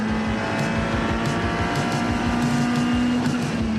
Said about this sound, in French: regardez ça, à quelle vitesse je double l'Audi GT4. Je l'ai laissé sur place. Génial à conduire.